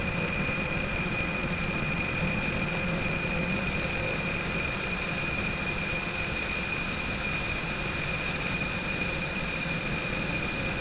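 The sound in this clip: Aircraft engine noise during a go-around: a steady, loud whine with piercing high tones over a constant roar, unbroken and with no voices.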